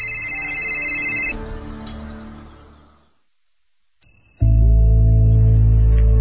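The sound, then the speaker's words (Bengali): An electronic telephone ring sounds as steady, high, piercing tones. It breaks off into a fading noisy wash and a short silence, then the high tone returns over a loud, low droning sound. “তোমার phone বাজছে।”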